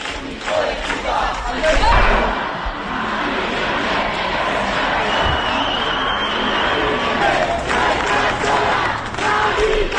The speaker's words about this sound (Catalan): Són alguns dels sons del dia d'aquest matí a Madrid, al barri de Vallecas. Un fons d'inversió ha executat el desnonament. Centenars de veïns han intentat impedir-ho.